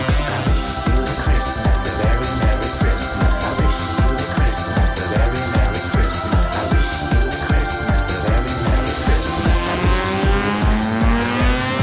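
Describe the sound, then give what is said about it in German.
A car accelerates hard. The engine roars loudly and continuously with a rapid rhythmic pulse, and its pitch climbs steadily near the end. “Jetzt gebe ich nochmal richtig Gas hier.”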